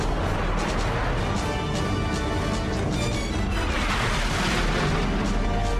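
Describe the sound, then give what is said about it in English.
Aircraft guns firing on three trucks on a bridge: a loud, dense barrage of booming, crackling bursts that runs without a break for about six seconds. “Line 01's got a tally on three trucks. Eastbound on the bridge. Roger, Line 01. You're clear to engage. Ringo's padlocked. In hot with guns.”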